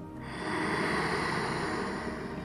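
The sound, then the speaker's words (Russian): A steady nasal inhale during a guided breathing exercise: a single long, soft airy breath drawn in through the nose, lasting about two seconds and fairly faint, with no voice over it. “И теперь вдох через нос.”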